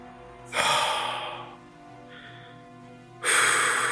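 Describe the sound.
A deep breath: a long, loud breathy rush tapers off, a faint breathy trace follows, and a second strong breath starts near the end. No talk is heard.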